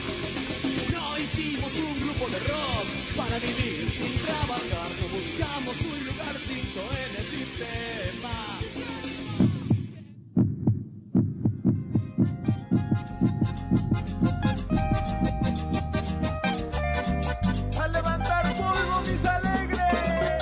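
Heartbeat thumps in a radio show jingle: music plays, breaks off briefly, then a run of low, rhythmic thuds comes back in under the returning music.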